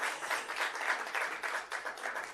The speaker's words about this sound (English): Please give a big round of applause.